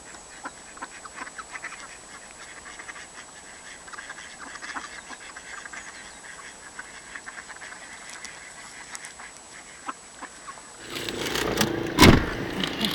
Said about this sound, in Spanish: Hay gaviotas también que vienen de arriba y les roban y los patos las quieren echar. Se pelean.